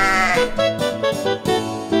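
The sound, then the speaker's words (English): A sheep bleats loudly in a few wavering, nasal calls one after another, each bleat stepping to a slightly different pitch. “Let's meet Baba Black Sheep.”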